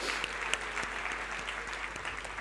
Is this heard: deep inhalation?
no